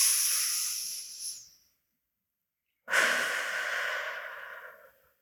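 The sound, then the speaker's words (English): Deep breaths are drawn and released through the mouth during a mindfulness meditation: two long, airy breath sounds separated by a silent pause, soft and without talk. “and releasing through the mouth on the exhale. Two more deep breaths, inhaling and releasing. And one more.”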